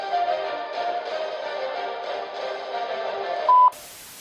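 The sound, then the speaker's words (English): A single short, loud electronic beep from an answering machine sounds near the end, after a sustained droning, organ-like tone. “Please leave your name and message after the beep”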